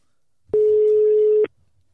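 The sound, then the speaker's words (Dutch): A single telephone ringback tone sounds as an outgoing call is placed: one steady, even beep lasting about a second, alone against near silence. “Nou ja, dan eh, gaan we Arthur toch bellen.”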